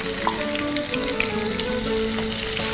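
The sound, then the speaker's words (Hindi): Feta cheese coated in cornflour fries in oil with a steady, dense sizzle and scattered crackles, continuous throughout with no talk. “ये देखें जैसे जैसे हम इसको cornflour लगा के फ्राई कर रहे हैं, ये क्रिस्पी और क्रंची होते जा रहे हैं।”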